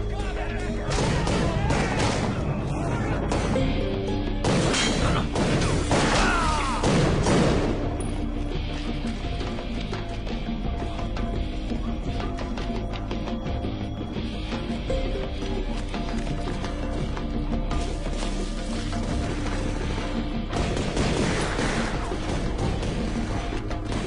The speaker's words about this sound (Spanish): ¡No dejen de dispararles!